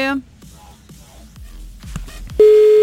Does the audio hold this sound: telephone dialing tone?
yes